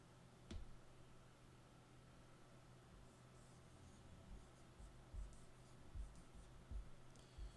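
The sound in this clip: A dry erase marker writes on a whiteboard in faint, squeaky strokes, a few short scratchy bursts over a quiet low hum.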